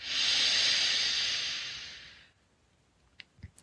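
A slow breath drawn in during a guided meditation: a long, soft, airy hiss that swells and then fades over about two seconds, followed by near silence with a few faint clicks.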